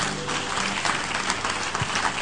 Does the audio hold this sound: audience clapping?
yes